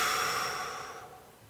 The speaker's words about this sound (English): So let's take a slow breath in. And a calming breath out.